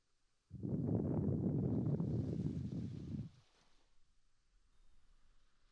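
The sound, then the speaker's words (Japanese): In ASMR, a soft breath is blown into the listener's ear. It comes as a single steady, breathy whoosh about three seconds long, followed by near silence. “じゃあお耳ふうするよ。”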